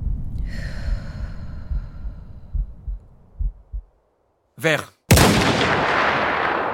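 A sniper rifle shot hitting its target erupts as one sharp, loud crack near the end and trails into a sustained hiss. Soft, low thumping pulses and a brief breathy sound come before it.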